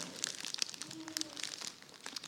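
Faint crinkling and rustling of packaging as a package is unwrapped, with many small, irregular crackles that continue throughout.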